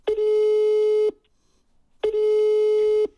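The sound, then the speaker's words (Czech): Telephone line tones as a call is placed: two steady, mid-pitched beeps, each about a second long, separated by a second of silence, fairly loud and alone. “Tak já volám Vaškovi Šandovi.”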